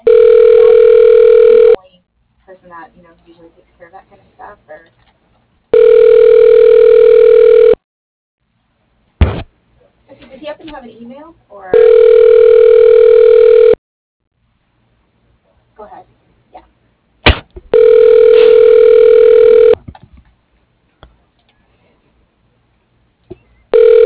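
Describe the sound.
Telephone ringback tones play while a call is transferred: four long, steady tones of about two seconds each, separated by pauses, with a fifth starting at the very end.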